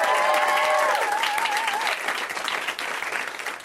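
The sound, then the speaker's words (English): Audience applause for comedians at a live stand-up show: dense, steady clapping from start to finish, with a voice speaking over the first couple of seconds. “You can clap for me, you don't have to feel weird. And hey, there's a bunch of great comics right backstage, and they're gonna do an amazing job. Let's hear it for them. Let's hear it for them.”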